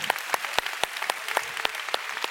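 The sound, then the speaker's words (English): Applause from a Pentecostal church audience clapping during a worship service, a steady wash of many hands with sharp individual claps standing out throughout. “Come on, church, let's give the Lord a big clap.”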